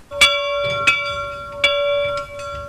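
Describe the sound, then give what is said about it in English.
A church bell rings with three loud strikes at an unhurried, slightly uneven pace, each blending into a steady sustained ringing hum with no voices present. “My memory of the bell now goes back when I was going to school as a child, you know, and you heard the Loch's bell going at 6”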